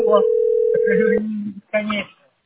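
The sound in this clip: A telephone ringback tone heard while placing a call: one long, steady, mid-pitched tone at the start, then a voice speaks over it and after it ends.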